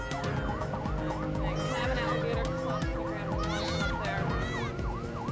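An ambulance siren, racing to hospital with an injured infant, wails in repeated rising and falling sweeps, continuous and steady over a low rumbling engine and road noise.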